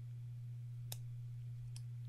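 Two sharp snips as the ends of vape coil wires are cut shorter during a coil build. The snips are quiet and spaced apart over a steady low hum.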